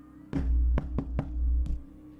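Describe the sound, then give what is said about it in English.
Knocking on a door in a video game: five sharp, hollow knocks at an uneven pace, the last three closer together, over a steady low electronic hum. “Knock on your door.”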